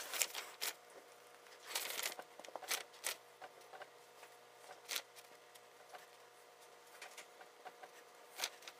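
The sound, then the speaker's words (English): A pen sketches a diagram of a natural gas meter and kiln piping on paper, making faint, scratchy strokes and many quick irregular taps, with no talking. “I'm just going to sketch these in quickly and then I'll talk through it.”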